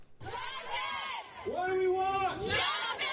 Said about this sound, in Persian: این اعتراض کنندگان دقایق پس از آن در جلو ستر محکمه ایالات متحده تجمع کردند